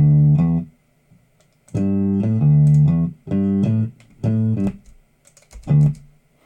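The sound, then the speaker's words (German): A music loop cut in audio editing software plays back as several short bursts of buzzy, pitched synth-like notes in a stuttering rhythm, separated by brief silences, with no voices. “Das ist noch der vom vorigen Loop. Den muss ich dann wegcutten. So, bam. Jetzt ist es der Loop und der geht dann so.”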